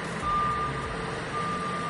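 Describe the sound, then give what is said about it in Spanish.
Reversing beeps from an earthmoving machine flattening a beach dune: two long, steady high-pitched beeps separated by a pause, over a continuous low engine rumble. “con ese pitido característico, allanando la duna, pues más o menos a la altura del playa Club.”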